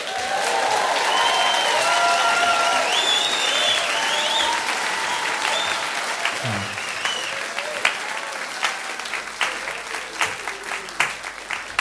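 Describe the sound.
Audience applause and cheering as a band is welcomed to the stage, loud sustained clapping with whistles that thins out into scattered claps toward the end.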